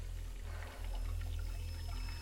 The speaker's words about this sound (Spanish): Agacha su mirada hacia el lavabo donde sigue corriendo el agua del grifo.